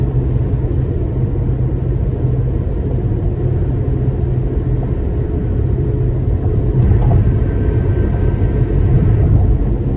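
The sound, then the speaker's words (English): Steady tire and road roar from a car on a daily commute, picked up by a microphone beside the car window. It is a continuous low rumble that grows slightly louder in the last few seconds, with no talk. “where the microphone is, probably capturing nothing but my tires.”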